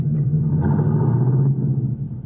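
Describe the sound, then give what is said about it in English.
Car engine rumbling as the car pulls away slowly in first gear with the clutch let out gently, a steady low droning rumble with a slight change in tone partway through. “Now, put it in first. Let the clutch out easy, and you'll roll slowly and smoothly.”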